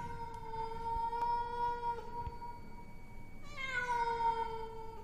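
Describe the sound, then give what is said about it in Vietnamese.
A black cat wails mournfully in two long, drawn-out, wavering cries, the second starting higher and sliding down, faint over a soft background hiss. “chỉ có con mèo đen, nó vẫn ngồi ở đấy, đôi mắt sáng rừng rực mà kêu lên ai oán.”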